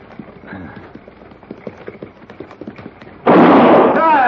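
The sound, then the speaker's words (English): Steady clip-clop of hooves from a horse-drawn buckboard on a Western trail in a radio drama, then one loud, sharp gunshot fired into the air, with a long, harsh ringing tail that fills the last second. “If I fire again, Morgan, it won't be in the air.”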